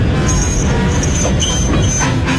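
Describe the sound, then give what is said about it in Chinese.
A train under emergency braking rushes forward with a loud, continuous rumble and clatter, while a steady high-pitched wheel squeal runs over it. “王国光虽然紧急刹车，但是列车在巨大的惯性下仍然以雷霆万钧之力冲向前。”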